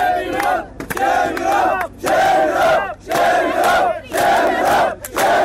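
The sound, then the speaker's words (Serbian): A crowd at a barbed-wire border fence chants a repeated protest slogan, loud rhythmic bursts of many voices that return several times with short gaps between them. “Usledili su aplauz i skandiranje iste poruke.”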